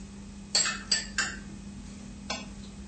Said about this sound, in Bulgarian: Разбъркваме съставките, докато получим еднородна смес.